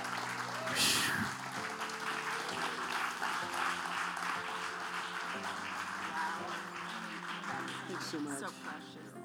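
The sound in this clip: A church audience applauds to welcome two pastors to the platform: steady, fairly quiet clapping runs through the whole stretch without a clear break.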